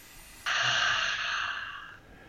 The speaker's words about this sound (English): Inhale through your nose. And exhale out your mouth.